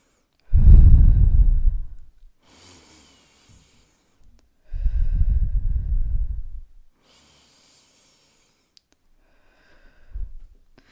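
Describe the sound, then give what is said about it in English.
Deep breaths drawn in through the nose and pushed out through the mouth: two long, heavy, rushing exhales, each followed by a softer airy inhale, then a brief final puff of breath. “let's take three deep breaths here. So in through the nose and out through the mouth. Let's do it together.”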